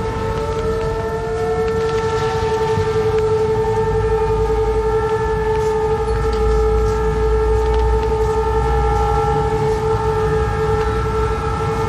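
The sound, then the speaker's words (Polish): Civil defense sirens wail at five in the afternoon, a loud, continuous blend of steady layered tones with slow pitch drifts and a few gliding lines, sustained without a break over a low rumble. “właśnie za chwilę będą wyły syreny”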